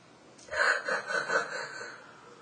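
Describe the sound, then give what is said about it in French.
A single drawn-out yawn, voiced and breathy, begins with a sharp intake, swells for about two seconds and then fades away. “Oh, voilà, c'est ça. Et encore un peu de bâillement.”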